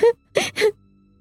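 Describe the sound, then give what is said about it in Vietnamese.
A frightened woman cries weakly in a cold room, giving three short sobs: a voiced catch, then two quick breathy sobs close together, fading into quiet. “Trong căn phòng lạnh móc, tiếng khóc vang lên yếu ớt.”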